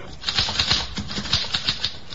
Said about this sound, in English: Here's a typewriter. Your secretary uses one. Perhaps your son or daughter write their school essays on a machine like this.